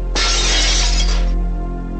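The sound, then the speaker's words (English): Glass shattering as a cabinet door's pane is smashed with the handle of a handgun: one loud, bright crash of breaking glass lasting about a second, then a short fading tail. “She gets one of Richard's handguns and breaks the glass on the cabinet with the gun handle.”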